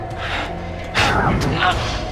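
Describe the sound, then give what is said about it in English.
In an audio drama, a shockwave blast of noise and light throws a character across a room, heard as a sudden, moderately loud burst about a second in that lingers as a rough, swelling wash to the end. “Finding she's free, Emma blasts Doyle across the room with a shockwave of noise and light.”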